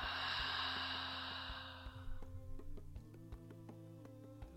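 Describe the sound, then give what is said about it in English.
A slow, deep breath during a guided breathing exercise: a soft, breathy rush for about two seconds that fades out, then quiet sustained tones and gentle chimes continue alone. “Gently taking a nice deep breath in and out.”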